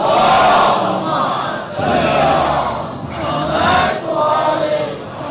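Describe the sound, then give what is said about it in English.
A crowd recites salawat loudly in unison, several swelling chanted phrases of many voices rising and falling in waves. “Right, one more salawat. No. For the happiness of Bibi Fatima, send a loud salawat.”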